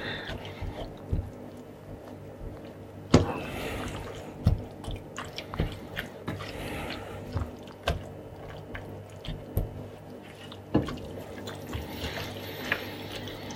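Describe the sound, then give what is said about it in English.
Wet, squelching stirring as dark muscovado sugar is worked into a thick chutney, with many irregular soft squishes and a few sharper scrapes or knocks against the pan, at moderate loudness with a low steady background hum and no talk. “I'm using dark muscovado sugar, which I think should make a lovely dark chutney. Just stirring that in.”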